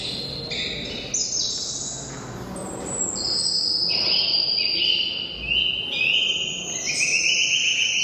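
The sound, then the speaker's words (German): Choir singers' imitations of birdsong, sped up to bird speed so the voices become high chirps, whistles and trills, heard over a constant murmur from the crowd at a gallery opening. “Anschließend wurde der Ton dann wieder auf die ursprüngliche Vogelgeschwindigkeit beschleunigt und plötzlich klingen die Menschen wie Vögel und das hört sich so an.”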